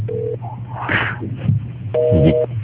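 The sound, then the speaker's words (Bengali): A telephone line cuts off during a call, leaving short electronic tones: a brief low beep, then a longer, higher two-note beep, both over a steady background hiss. “লাইনটা কেটে গেছে।”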